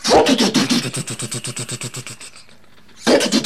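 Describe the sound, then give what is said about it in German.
A small engine is pull-started with a recoil cord, like a lawnmower: a quick, regular train of many chugging pulses that fades out, then a short pause before another loud burst. “Das funktioniert das wie beim Rasenmäher so ähnlich? Ich denke ja. Ja, dann ziehe ich jetzt einfach mal an der Reißleine an, gell?”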